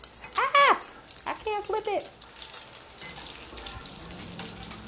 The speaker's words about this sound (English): I put too much oil in here. Oh shit, sorry, I'm flipping my little croquette patty things.